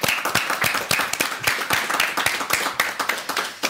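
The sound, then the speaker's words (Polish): Studio audience applause in a Polish television studio: dense, steady clapping from many hands, loud and continuous for the whole stretch with no voices over it. “Jest z nami także publiczność w studiu telewizji Idź Pod Prąd. Przywitajmy brawami.”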